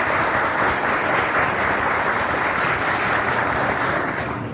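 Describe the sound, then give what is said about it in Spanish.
Crowd applause at a gnostic gathering, a dense and loud wash of clapping that stays steady throughout, with no voices and only a slight easing at the very end. “También para él pedimos un gran aplauso.”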